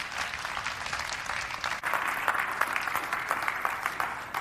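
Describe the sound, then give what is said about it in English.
A church audience gives a standing ovation, dense and steady clapping that stays loud and unbroken throughout, with a brief dip just before the middle. “That is the very first standing ovation that I think I've ever had in my entire life.”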